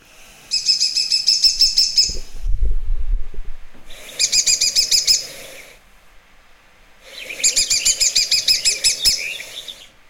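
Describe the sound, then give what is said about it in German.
Woodpecker calls come in three bursts of rapid, high-pitched piping notes separated by short pauses, with a brief low thump between the first two bursts. “Aber man hört es. Ja, es ist auch wieder, finde ich, vom Laut her typisch Specht, ja. Aber höher, ja.”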